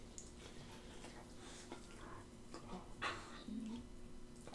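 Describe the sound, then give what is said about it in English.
A pet dog whimpers faintly with a brief, thin whine and a soft squeak over a low, quiet background hum. No one speaks. “That's a fine contribution to this episode. Everyone, that was my dog, Dexter.”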